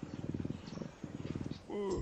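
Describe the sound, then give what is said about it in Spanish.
A napping family of cheetahs purrs in low, rhythmic buzzing bursts separated by short gaps, and a voice comes in near the end. “Muchos felinos salvajes ronronean, como el guepardo. Cuando una familia de guepardo duerme la siesta, es un fiestorrón.”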